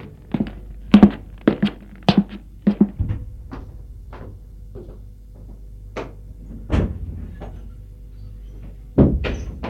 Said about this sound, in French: Et là, il ouvre une vieille malle où se trouvent tous les photos